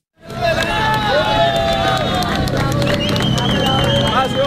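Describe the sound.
Crowd cheering and clapping as a 43-year-old security guard is pulled from earthquake rubble in Venezuela, excited shouts and scattered claps mixing with loud, continuous voices.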